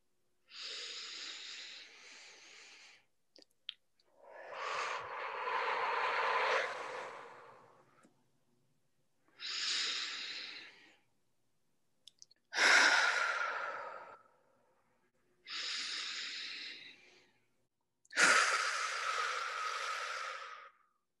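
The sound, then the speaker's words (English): Three deep, slow breaths taken as a group exercise, each drawn in and let out with an audible, airy sigh. The six long breathy swells are separated by short pauses, with no talking. “we always start with three deep breaths to just kind of reset everything, get yourself clear. So we'll do those together.”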